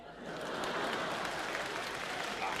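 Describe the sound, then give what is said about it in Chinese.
Audience applause at a crosstalk comedy performance: a dense, steady wash of clapping swells in within the first moment and holds at an even level to the end, with no voices over it. “你听听这掌声啊，这多好，观众喜欢呐！”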